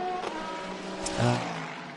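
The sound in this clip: Race car engines droning on the circuit in Dubai, a continuous humming tone that swells louder just past the middle, then eases off.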